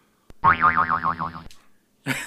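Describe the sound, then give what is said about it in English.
A voice imitates a metal rod going boing against trees: a wobbling, springy vocal tone lasting about a second, then a short click and another brief vocal burst. “And I would hit it against trees, and I'd go boing, boing, boing, boing. Well, yeah, like this.”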